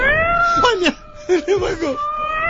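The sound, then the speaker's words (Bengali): A cat meows in short, wavering cries while people talk over it. “বিড়াল ডাকলে ভয় পাও?”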